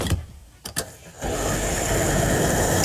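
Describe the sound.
A fuel pump sound effect in a game show: a few sharp clicks, then a motor whirs up into a loud, steady running drone that continues unbroken to the end.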